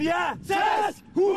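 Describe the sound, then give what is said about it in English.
A Danish expatriate five-a-side football team in Sydney bellows its pre-match cheer as three loud shouted bursts from several voices, separated by brief silent gaps. “That's the sound of the Sydney Vikings conducting their pre-match cheer before their weekly five-a-side football match in the city's inner west.”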